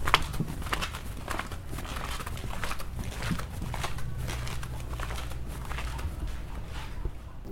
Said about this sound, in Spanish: Vamos a escuchar algunos pasos aquí en el andar de la casa.